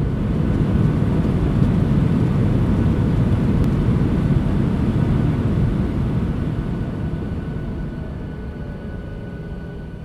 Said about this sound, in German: Ja, wir haben mit dem Flugzeug eine sehr gute Landung geschafft.